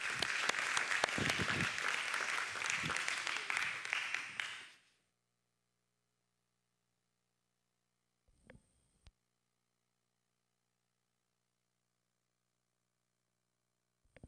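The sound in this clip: A church audience applauds to welcome speakers to the stage, with loud, dense clapping for about five seconds. It stops abruptly into near silence broken by a couple of faint, brief knocks.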